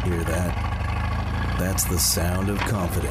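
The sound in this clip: A boat engine, a 300-horsepower Pro XS outboard, hums with a steady low rumble beneath a voice talking throughout.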